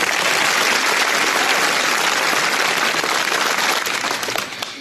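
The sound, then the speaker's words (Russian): Audience applause fills a comedy show, dense steady clapping from a large crowd that stays loud throughout and tapers off near the end. “Под ваши аплодисменты.”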